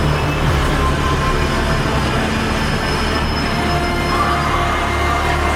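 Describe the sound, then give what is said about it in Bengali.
An underground metro train running on its rails: a loud, unbroken rumble and rattle of wheels with a thin high squeal riding on top, steady throughout with no talk. “Kalighat, Jatindas park, Netaji ভবন, রবীন্দ্র সদন পেরিয়ে পাতাল rail ছুটল দক্ষিণেশ্বরের দিকে।”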